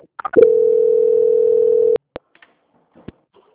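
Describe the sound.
A telephone call-transfer tone sounds as one steady mid-pitched beep lasting about a second and a half. A few short electronic blips come before it, and scattered clicks follow.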